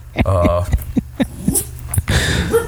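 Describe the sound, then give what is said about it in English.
A dog barks and yips in a few short bursts while a person talks over it. “hey, no barking. Somebody woke him up”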